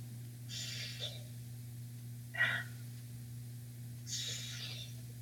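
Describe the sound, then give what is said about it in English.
Flonase nasal spray being sniffed, three short, airy hissing sniffs spaced a second or more apart over a steady low hum. “Could you hear it? I could. That's my Flonase.”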